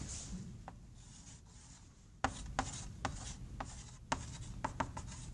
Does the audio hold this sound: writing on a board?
yes